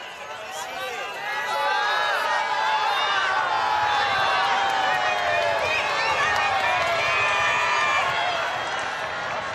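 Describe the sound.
Crowd of pilgrims at the papal general audience in St. Peter's Square: a dense mass of voices cheering and calling out, rising within the first two seconds and then holding at a steady, loud level.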